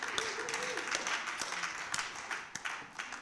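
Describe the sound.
An audience applauds during a church sermon. The faint, steady patter of many hands clapping continues throughout with a few louder individual claps standing out.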